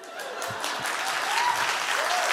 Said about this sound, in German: Diesen Applaus finde ich extrem angebracht.